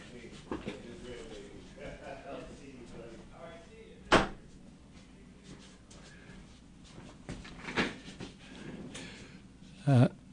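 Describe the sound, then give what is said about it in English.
A door being shut gives a few sharp, separate thuds and clatters spread over the stretch, each brief and distinct above a quiet, low background hum. “I'll have to shut the door.”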